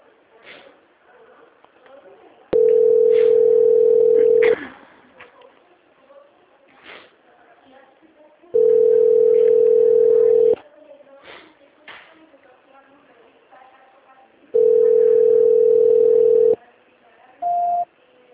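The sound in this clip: Telephone line tone during a call transfer: three long, steady buzzing tones of about two seconds each, separated by pauses with faint murmur and line noise, then a brief higher beep at the end.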